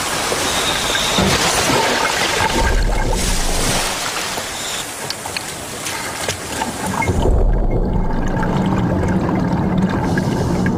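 A diver enters the water with a loud, broad rush of splashing and sloshing water that surges and churns throughout.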